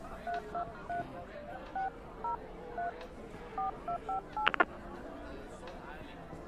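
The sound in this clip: Telephone keypad dialing tones: many short, even electronic beeps at varied pitches in an irregular sequence, with a couple of sharp clicks near the end, over faint background noise.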